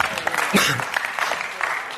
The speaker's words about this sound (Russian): Смотри, Богу аплодисмент.